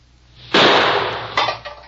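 Rifle shots fired at a target: two sharp, loud cracks, each with a noisy decaying tail, the second briefer than the first, over a faint low hum.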